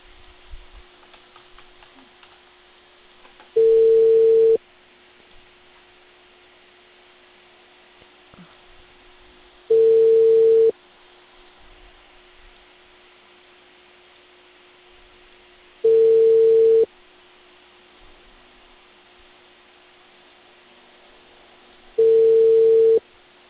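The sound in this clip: Telephone ringback tone during an outgoing call to Chosica, Peru: four identical steady mid-pitched tone bursts, each about a second long and spaced evenly, with a faint constant hum between them.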